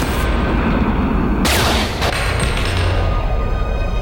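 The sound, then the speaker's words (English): A gunshot is fired into a person's chest, heard as a sharp, loud blast that cuts through a continuous bed of dense, heavy noise and leaves a brief tail. “the gunman fires into Novak's chest.”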